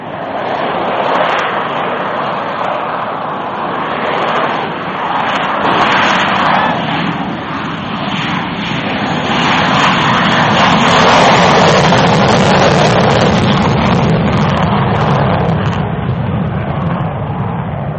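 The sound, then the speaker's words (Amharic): Steady roar of an L-29 military jet aircraft in flight, a loud, unbroken engine drone that swells slightly past the midpoint and holds to the end. “አሁን በቀጥታ በረራውን እንጀምር።”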